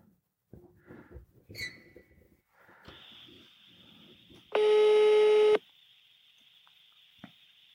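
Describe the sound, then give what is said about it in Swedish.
A phone call tone rings out from a call placed through a voice assistant: faint voices come first, then a steady high tone holds, broken midway by a loud, buzzy burst lasting about a second. “Hey Siri, call Marcus Attefors. Calling Marcus Attefors mobile.”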